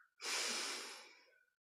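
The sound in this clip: One slow, deep breath is drawn in during a guided relaxation exercise: a single soft, airy inhale that swells quickly, holds for about a second and then tapers away to silence.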